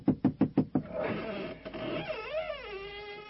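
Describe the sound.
Five firm knocks on the door of a house, quick and evenly spaced, with each rap sharp and loud.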